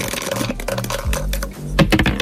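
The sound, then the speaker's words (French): Dice being thrown in a board game, rattling and clattering in many quick, sharp wooden clicks that continue steadily throughout. “Dès que vous me dites top, je lance les dés”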